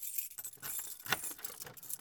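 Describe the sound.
Keys jangle while someone locks a door, giving bright metallic clinks and rattles over about two seconds. A sharper clink stands out midway, and no one speaks.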